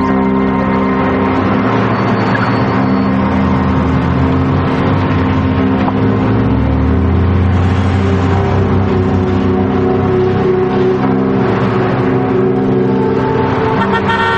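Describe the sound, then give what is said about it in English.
A car driving through a small town, giving a continuous loud rumble of engine and road noise that holds steady for the whole stretch without pauses. “They drive through a small town.”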